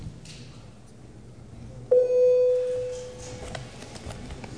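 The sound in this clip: A parliamentary voting bell rings in the chamber as a clear single tone. It strikes sharply, holds briefly, then fades over about a second and a half above quiet background room noise.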